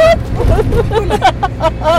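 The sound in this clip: An old car drives along with a low engine rumble running steadily beneath people talking throughout.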